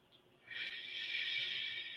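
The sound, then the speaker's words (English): A deep breath is let out during guided relaxation, a soft airy exhale that begins after a short quiet moment and flows steadily to the end. “Take another deep breath and let it out.”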